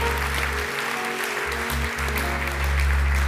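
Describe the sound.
Applause from a church audience congratulating people who had just said a prayer: dense, steady clapping that runs throughout and grows slightly louder near the end.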